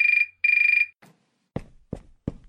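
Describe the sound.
A mobile phone ringing with two short bursts of a bright, fluttering electronic trill separated by a brief pause. A few short, low-pitched taps follow.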